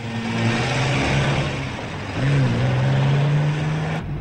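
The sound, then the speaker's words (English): A white car drives off: a steady engine drone with a low hum, whose pitch lifts partway through as it speeds up, loud and without voices. “The pair get in and Hallam drives off.”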